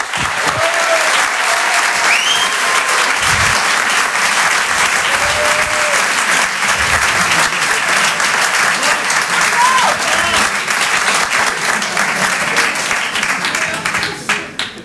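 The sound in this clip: Audience applause for a comedian at a stand-up show: dense, steady clapping that holds at full strength for about fifteen seconds and dips slightly at the very end.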